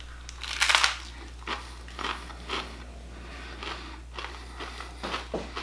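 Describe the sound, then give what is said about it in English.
Crunching bites of Hard Bite Sweet Ghost Pepper potato chips from Canada. A loud first crunch is followed by many crisp, irregular chewing crunches, all over a steady low hum with no talking. “So that means I'm starting off with Hard Bite Sweet Ghost Pepper potato chips from the Canada.”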